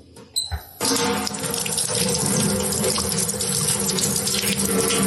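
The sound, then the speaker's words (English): Tap water runs at a sink while something is washed off. A couple of brief knocks come first, then a loud, steady, continuous rush of water. “I'll wash it off.”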